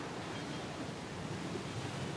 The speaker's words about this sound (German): Außer vielleicht am Tempel von Uluwatu, auf den Klippen hoch über der Brandung des Indischen Ozeans.